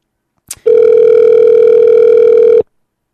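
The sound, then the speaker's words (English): One long, steady telephone ringing tone sounds loud and alone on an outgoing call, right after a brief click from the dialing. “And I'm just going to let it dial. And all right. One ringy dingy.”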